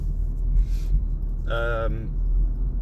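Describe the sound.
Steady low engine and road rumble from a car being driven, continuous throughout, with a brief voice sound partway through.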